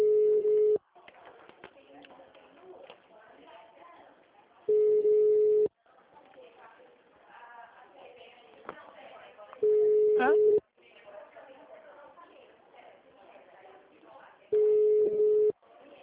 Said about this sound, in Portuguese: Eu vou ficar tentando as opções. Eu tô no Van Gogh agora, chamando.